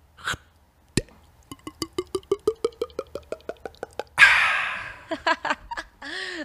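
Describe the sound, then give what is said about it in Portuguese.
A mouth imitation of a small can being opened: a long run of evenly spaced, crisp clicks speeding up slightly, then a sudden loud hiss, followed by a few quick plops and a final rising squeak. “Agora abre essa latinha aqui, ó. Pega essa latinha aí.”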